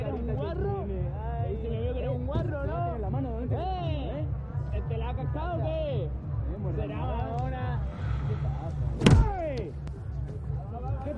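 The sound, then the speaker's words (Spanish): Someone hitting a car in a tense film scene: one sharp, loud thump near the end, set against a background of people talking. “golpea el coche y Jaime se sobresalta pero no lo mira.”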